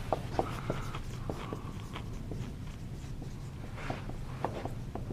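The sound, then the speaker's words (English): Writing on a board, heard as faint scratchy strokes and light taps that come in short, irregular bursts, with no one speaking. “So here, I'm going to write this on the board.”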